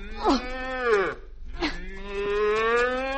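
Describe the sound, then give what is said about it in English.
A cow moos twice in long, loud, drawn-out lows, with a short pause between them; the second moo runs longer and holds a steady pitch. “we better get your cow into the truck”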